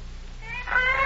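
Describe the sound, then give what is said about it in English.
Cats yowl in a short, strained, high cry that swells louder over about a second above a low, steady hum. “What's that? Cats. Oh, I'll break that up.”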